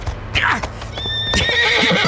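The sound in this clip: A young chestnut horse neighs, giving a loud, shrill whinny with a wavering pitch that lasts about a second, with a few hoof clops around it.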